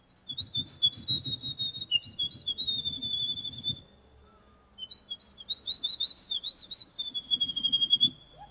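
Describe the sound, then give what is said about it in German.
A person whistles an imitation of a wren's song at a bird-call imitation contest: rapid, high, warbling trills in two long bursts separated by a brief pause. “Klingt fast genauso wie ein Zaunkönig.”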